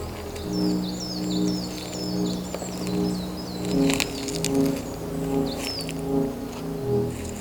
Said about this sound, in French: Et le silence, à peine voilé par les doux gazouillis des oiseaux.